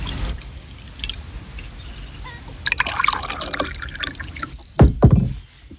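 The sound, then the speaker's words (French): Water poured for a drink, a trickling, splashing liquid sound that grows fuller and louder midway, then ends with a few short, sharper splashes before falling quiet. “Tu veux boire un coup? De l'eau, hein, pas du vin, pas le matin.”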